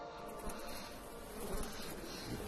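Buzzing of an insect, a small bug in a cartoon scene: a faint, continuous drone that swells and dips slightly without a break.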